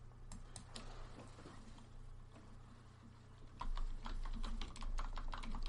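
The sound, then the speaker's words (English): Someone types a search on a computer keyboard in the dark, producing faint, rapid key clicks in irregular bursts over a low hum, the tapping growing busier and louder toward the end. “I'm gonna do a quick search of Corey Perry. I'm trying to type in the dark here.”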